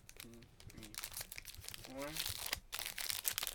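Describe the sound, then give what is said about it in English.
Crinkling and tearing of a Pokémon Sun and Moon trading card pack's foil wrapper as it is ripped open, a busy papery rustle with a voice talking briefly over it in a few spots. “Alright, so I opened a Sun and Moon pack.”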